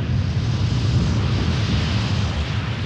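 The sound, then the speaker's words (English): A volcanic eruption's pyroclastic current, a searing avalanche of hot gas and dust exploding down a mountainside, makes a dense, continuous roaring rumble, loud and heavy in the low end and unbroken throughout. “it releases a searing hot avalanche of gas and dust that explodes down the sides of the mountain. This is called a pyroclastic current.”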